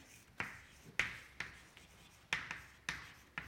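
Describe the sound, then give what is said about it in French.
Writing on a board during a lecture: a faint series of short, scratchy strokes with sharp taps at uneven intervals, and no talking. “Est-ce que j'écris assez gros pour les gens du fond”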